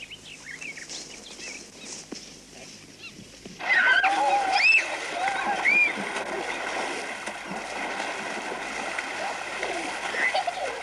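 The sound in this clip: Children bathing and splashing in water make a continuous run of splashes and sloshing, which grows louder partway through. Voices and shrill calls sound over the water.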